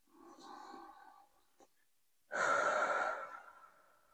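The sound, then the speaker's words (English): One big, deep breath: a soft, airy inhale, then a pause, then a longer and louder breathy exhale that fades out, with no talking. “take a big deep breath”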